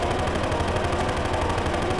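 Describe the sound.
Automatic gunfire from a rifle aimed at armored figures: a steady, dense stream of rapid shots blurring into one continuous, loud rattling roar.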